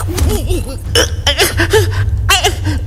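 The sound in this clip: Heavy, ragged panting breaths, likened to a horse's breathing, come as a few loud gasping bursts mixed with voiced, whimpering tones.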